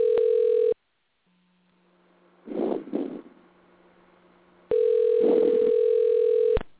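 A telephone dial tone sounds as a call is dialed: a steady, loud tone that cuts off, a gap with a couple of brief noisy rustling bursts, then the tone returns and holds before stopping.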